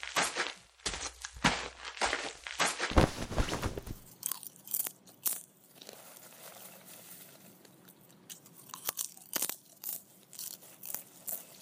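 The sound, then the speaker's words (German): Crunching and chewing as breakfast is eaten together in a tent: a rapid run of loud, crisp crunches fills the first few seconds, then sparser, softer bites and small clicks follow with pauses between, with no talk. “Lasst uns ins Zelt gehen und gemeinsam das Frühstück essen.”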